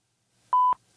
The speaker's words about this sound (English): A beep.